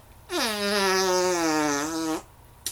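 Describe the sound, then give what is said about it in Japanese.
A very large fart sounds as one long, loud, buzzy blast of nearly two seconds at a steady low pitch, ending abruptly and followed by a brief click. “やだ、おなら出ちゃった。超特大おならはどう？”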